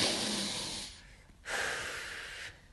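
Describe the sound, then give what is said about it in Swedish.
Deep, slow breathing: two long, airy breaths separated by a short pause, each soft and steady, with no talking. “Nej, nu får du ta några djupa andetag. Och så får du reflektera över... Ta tre djupa andetag nu.”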